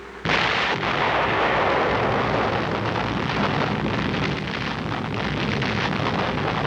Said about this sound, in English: Overhead at 32,000 feet, a bomber is circling with its devastating bomb. Now it is 0-10 seconds to H hour, and the atmosphere is tense around the ground zero target.